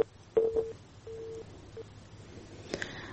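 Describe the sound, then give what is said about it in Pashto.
Telephone line tones from a dropped call on a poor phone line: a few short, steady, low beeps at irregular intervals over faint background hiss. “د تلیفون کرښې خراب دي او زموږ د میلمنو اړیکې پرې کیږي.”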